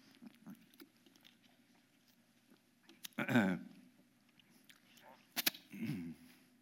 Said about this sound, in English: excuse me, let me get a sip here. I'm getting it dry.